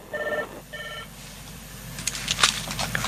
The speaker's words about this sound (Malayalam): നമുക്കൊരു കോൾ വരുന്നു, ഞാൻ കോൾ ഒന്ന് എടുത്തേക്കാം.